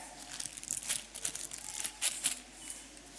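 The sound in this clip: Playing cards rustle as they are handed out to a player for a classroom noughts-and-crosses quiz game. Several soft, papery crinkling bursts come in quick succession, fairly faint, with no talking.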